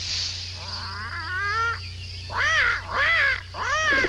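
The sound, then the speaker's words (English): Birds calling with harsh, harmonic squawks over a steady low hum: a wavering, warbled call first, then three loud, separate arched calls close together. “keep those birds still.”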